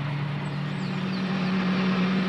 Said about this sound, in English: Ooh, I like driving our new car.